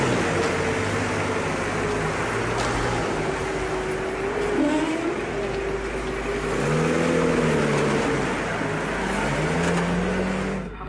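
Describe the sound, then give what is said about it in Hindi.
A military truck and jeep carrying Iraqi soldiers drive away with a steady low engine rumble. The pitch shifts slightly, and the sound swells briefly past the middle before continuing to the end. “Ranjit और अमृता इराकी सैनिकों का truck और jeep को जाते हुए देख रही है।”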